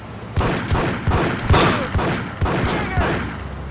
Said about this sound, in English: I shot three times and got out the way.